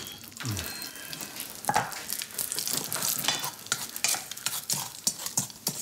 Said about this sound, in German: Was riecht hier eigentlich so? Ach, auch das noch der Speck. Ich wollte Rührei und Speck machen.